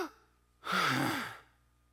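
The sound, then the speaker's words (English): A man's voice imitates a dying man's last breath with a single long, breathy exhale that carries a faint voiced groan and ends abruptly, with quiet before and after. “I watched him take his last breath. It went something like this.”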